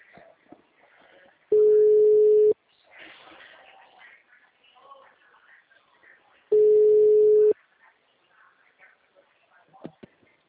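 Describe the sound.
Telephone ringback tone of an outgoing call: two steady, mid-pitched tones of about one second each, separated by a few seconds of faint background noise.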